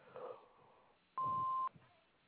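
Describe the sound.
A home answering machine gives a single steady electronic beep after its greeting, lasting about half a second. Faint speech comes just before it, and the line goes quiet afterward.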